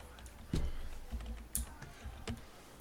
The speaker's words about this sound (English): I'm going to type it in the chat.